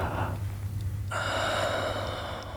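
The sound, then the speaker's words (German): A deep breath drawn in: a loud, airy inhale with a snorting, rushing edge, sustained for a couple of seconds without any voice. “Kontrollier deine Atmung. Tief einatmen.”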